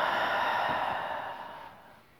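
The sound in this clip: A long, deep exhale during a guided breathing exercise: a soft, breathy rush that fades gradually, faint and on its own.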